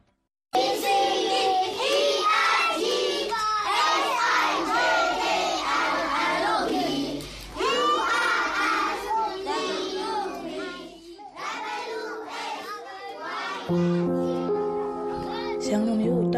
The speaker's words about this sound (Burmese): ရှိတဲ့ဖုံးတော်ကြီးဂျောင်းဝင်းထဲမှာအရွယ်ဆုံးကလေးငယ်တွေရဲ့စာအသံတွေပြန့်လွင့်နေပါတယ်။